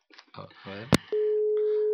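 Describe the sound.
A steady telephone line tone sounds while a caller is being reached on a radio show. It follows a moment of talk and holds at one even pitch, loud and unbroken, to the end.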